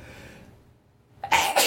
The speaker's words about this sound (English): that was a graphic sneeze on my part.